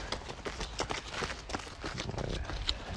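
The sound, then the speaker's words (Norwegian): Footsteps of a group of runners passing during interval training: many quick, rhythmic thuds layered over one another at a steady level, with no clear talking. “Der med de første løperne forbi nå.”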